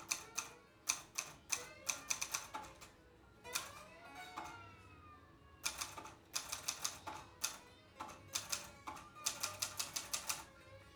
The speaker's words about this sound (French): Je tape à la machine.